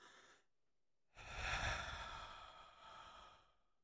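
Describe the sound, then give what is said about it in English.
A deep breath, very quiet: a short airy puff, a pause, then a long, full, breathy rush of air that slowly tapers away. “take a deep breath. Here, I'll do it with you.”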